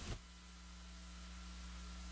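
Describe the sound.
Electric fan hum on a call with breaking audio, a faint, steady low drone with tonal buzz and soft static hiss following a brief burst at the very start.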